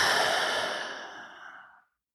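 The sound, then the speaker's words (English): A deep breath: one long, breathy exhale that starts full and steadily fades away over about two seconds, heard alone with no talk. “So let's take a deep breath, and then I'm going to talk about the differences between business owners and artists. Deep breath time. You ready? Let's inhale and exhale.”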